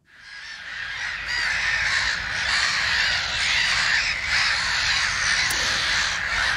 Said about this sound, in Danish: Det her, det er lyden af måger, hættemåger, nærmere bestemt.